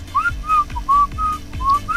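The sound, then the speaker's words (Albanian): Human whistling: a melody of short, clear high notes, some gliding upward, played in quick phrases with brief gaps between them. “Qishtë e fishkëllim”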